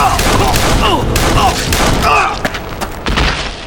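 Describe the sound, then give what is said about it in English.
Gunshots in a street gunfight, with a .45 revolver drawn from a leather holster: a few sharp cracks under voices and dense background noise. “Smoke took out Red, drawing and firing so fast the man was unable to drag his 45 out of leather.”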